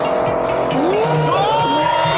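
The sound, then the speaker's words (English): A sports car's tires squeal and skid as it fails to take a turn. Whining squeal tones slide upward over a loud, steady engine roar. “He got a sports car. He can't take that turn. He can't take that turn.”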